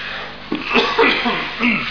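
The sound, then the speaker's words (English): Chesty coughing and throat clearing from a person getting over flu with a congested chest: a few loud, rough bursts in quick succession. “Excuse me, coughing.”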